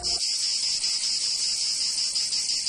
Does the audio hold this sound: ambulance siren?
no